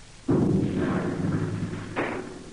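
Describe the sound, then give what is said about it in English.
Artillery cannon fire in a radio drama battle scene in Texas: a deep, heavy boom opens with a long rumbling roar, and a second blast breaks in shortly after. “Can you see our artillery? Men are looking this way. They're waiting for the signal, sir. All right. Wave your hat. Signal them to fire.”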